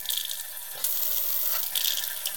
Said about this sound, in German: Was passiert ist, dass die Pumpe dann hier durch dieses Loch, diese Öffnung, Luft ansaugt. Man kann das hören, wenn ich hier zuhalte,